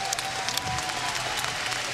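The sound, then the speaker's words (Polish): A crowd applauds a fighter after a bout: dense, steady clapping from many hands, loud and continuous throughout with no break. “Wielkie brawa dla Bonusa, bo dał kawał dobrej roboty.”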